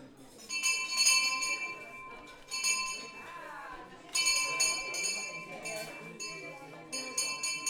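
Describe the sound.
A bell rung indoors, its bright, sustained high tone struck many times in bursts, each ring lingering briefly, while people talk over it.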